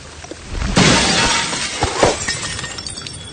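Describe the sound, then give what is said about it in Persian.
Tea glasses shatter as a tea tray is dropped: a sudden loud crash of breaking glass, followed by scattered clinks and rattling pieces that gradually die away. “امیر قاسم مرد رو پرت میکنه بیرون و در میشکنه. سینی چای هم از دست آسیه میاد.”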